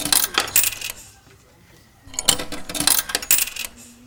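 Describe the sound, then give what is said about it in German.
Tokens thrown into a machine's coin slot, heard as bright metallic clinking and rattling in two bursts separated by a short pause, with no talk over it. “Steht an dem Automaten irgendwas dran? Tokens hier. Dann lasse ich meine Tokens hier. Schmeiß sie ein.”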